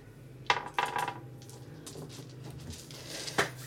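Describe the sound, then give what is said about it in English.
Dice being gathered up clatter in a few sharp clicks and small rattles, soft and scattered, over a low steady hum. “Yeah, I'm just getting my dices together right now. They're getting their dices ready.”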